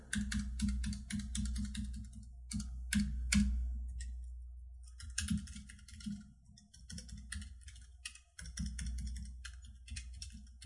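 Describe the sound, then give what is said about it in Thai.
Fingers type a note on a computer keyboard: quiet, irregular clusters of key clicks with short pauses between them, over a steady low hum. “เดี๋ยวต้องพิมพ์เตือนไว้ก่อนขออภัยนะครับ”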